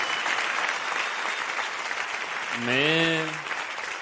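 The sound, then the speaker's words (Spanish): Theatre audience applause, an even, continuous patter of clapping throughout, with a brief voice rising over it near the end. “Y además noto mejor los aplausos de la gente a través de la papada”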